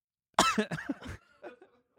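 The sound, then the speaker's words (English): A person coughing in a casual conversation: a quick burst of a few coughs, the first ones loud and harsh, trailing into softer, fainter coughs, with no talking. “it sucks. I always have to cough. You always have to cough.”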